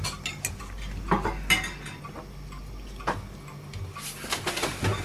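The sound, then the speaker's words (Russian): Dishes and cutlery clink as someone silently washes up after leaving the table, with scattered light clatters and taps that grow busier and brighter toward the end. “Насупившись, встает из-за стола, уходит. Молча начинает мыть посуду.”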